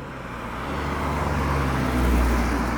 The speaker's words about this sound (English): Just sat down on some grass next to a McDonald's. You might be able to hear, it's a very busy area.